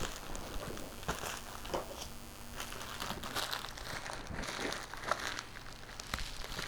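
Crinkling and crumpling of packaging as a package is unwrapped, with busy, irregular rustles and crackles that run steadily throughout.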